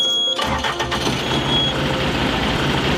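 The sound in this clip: A combine harvester engine starts: after a brief moment of quiet it catches at once and settles into a loud, steady running roar that holds to the end, with no voices.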